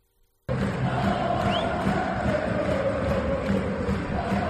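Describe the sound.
Osasuna fans chanting at El Sadar stadium about former coach Arrasate during a match against Mallorca: a dense, loud, sustained crowd roar that starts abruptly after a brief quiet moment.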